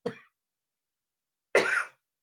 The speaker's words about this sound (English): Sorry about choking that. On your spit, man.